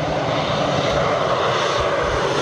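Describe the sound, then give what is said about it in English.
Steady, dense engine drone from firefighting airplanes dropping water on wildfires in Canada's Northwest Territories. The roar holds at an even loudness throughout, with no voices. “airplanes dropping water to douse wildfires in Canada's Northwest Territories”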